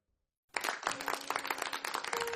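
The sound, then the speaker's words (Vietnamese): Applause from villagers gathered for a Vu Lan ceremony in a ghost village, a dense, steady patter that starts abruptly after a brief silence and holds to the end. “Mọi người vỗ tay rần rần.”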